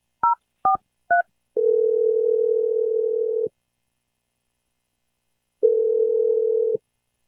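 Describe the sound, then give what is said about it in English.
A telephone number being dialled: three quick touch-tone beeps, then two long, steady ringing tones separated by a pause of about two seconds. The sounds are clean, with no talk. “I'm going to dial Megan's number right now.”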